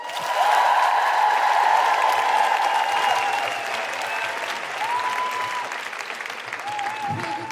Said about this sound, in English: put your hands together and make extraordinary guilty feminist high-fiving sounds for the phenomenal Kima Bob!